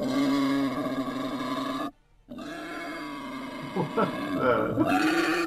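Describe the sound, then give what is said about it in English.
Wild boar grunting and roaring. A rough, throaty snarl runs for about two seconds, breaks off briefly, then returns as a string of lower, choppy grunts. “That is some farm action right there. That is a wild boar sound.”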